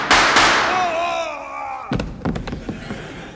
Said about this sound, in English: Sheriff, why did you shoot that well-adjusted cowpoke?